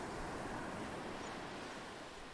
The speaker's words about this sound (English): The crushing waves retreat slowly back into the ocean.